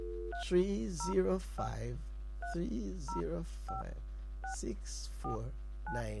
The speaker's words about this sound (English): Always call it again. So let's dial it again, right?